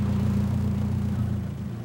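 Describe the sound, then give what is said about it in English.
Low, steady engine rumble from a police car pulling up in front of the Nevsky Hotel, an even mid-pitched hum holding level throughout with no voices. “The police car pulls up in front of the Nevsky Hotel.”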